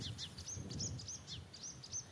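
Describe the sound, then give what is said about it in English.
Reed warblers sing in a faint background chorus near a lake, with many quick, high chirps and trills repeating over a low, soft rumble. “You can hear a background chorus of reed warblers.”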